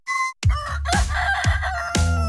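A rooster crows and hens cluck in a few loud, repeated bursts with no voices, the calls of farm chickens kept for eggs.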